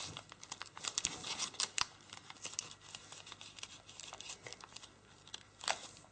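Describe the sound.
Paper crinkling and rustling as an origami model is pressed into a valley fold. Many short, soft crackles and scrapes come in quick irregular bursts, fairly faint, with no voices.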